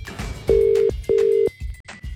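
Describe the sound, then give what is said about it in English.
Ringback tone of an outgoing phone call, two steady, low-pitched electronic buzzes of equal length separated by a short gap, loud and clear with faint background noise around them. “Ooh, it's ringing.”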